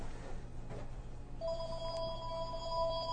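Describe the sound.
A telephone rings with an incoming call. A steady electronic ringing tone starts about halfway through and holds to the end over a low background hum.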